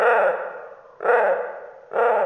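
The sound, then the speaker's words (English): Harsh, drawn-out calls of a giant terror bird from the Cenozoic era, made as a sound effect: three loud screeching bursts, each dropping slightly in pitch, heard alone. “exotic animal sounds. From the giant terror birds of the Cenozoic era”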